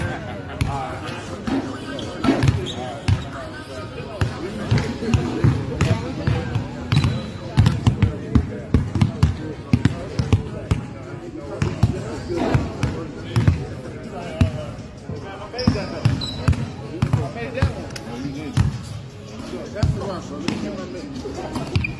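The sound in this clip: Basketball dribbled on a hard court: rapid, rhythmic bounces thump throughout, heard under ongoing talk from several voices.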